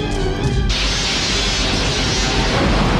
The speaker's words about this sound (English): When you see the phaser blast hit the side of the Enterprise, like, that is still a shocking, like, oh my God.